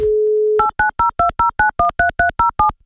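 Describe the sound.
A telephone dial tone, then eleven quick touch-tone keypad beeps in an even rhythm as a number is dialled to place a call. Each beep is a clean, fairly loud two-note electronic tone.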